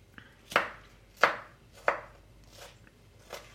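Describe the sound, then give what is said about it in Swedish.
Knife chopping onion on a cutting board: three sharp, loud chops at an even pace, then two softer ones, with no talk. “Så där, nu tror jag att löken var färdighackad.”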